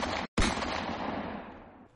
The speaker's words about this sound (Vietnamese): Hai tiếng súng vang lên, bánh một chiếc xe trong đó trúng đạn.